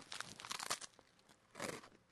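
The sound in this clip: A rusk is bitten and chewed with faint, crisp crunching: a cluster of crackly bursts, a short pause, then another crunchy burst near the end.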